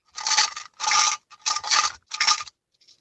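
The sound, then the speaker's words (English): Rattling of a small tin of Eclipse mints, shaken in four bright, hissy bursts separated by brief pauses, with a faint last shake at the end. “You are rattling... It sounds like, you know, in dramas when they rattle... tins on jail bars. Are you in jail, Beck? Not yet. Oh, good. You're excited. Oh, I know what it is. Yeah. Is it Eclipse Mints in the little can? Oh, nailed it. It is.”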